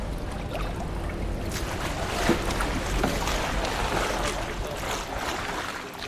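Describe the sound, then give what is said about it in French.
Gentle lapping of calm water, a soft continuous sloshing with small irregular splashes and a steady wind rush, fairly faint throughout. “Le clapotis de l'eau, très joli ce son. Et ça endort.”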